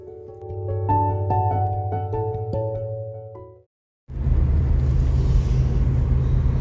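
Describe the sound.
A steady low rumble inside a car driving home, setting in after a short tonal chime-like melody and a brief silence, then continuing evenly to the end.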